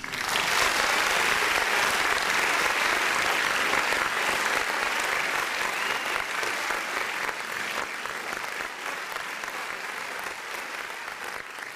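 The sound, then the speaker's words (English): Studio audience applause for a live show opening: loud, dense clapping from a crowd that continues unbroken for several seconds, tapering gently near the end. “ladies and gentlemen, put your hands together for New York Knit.”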